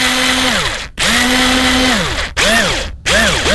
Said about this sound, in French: La perceuse, il enlève le boulon sur le bout, là.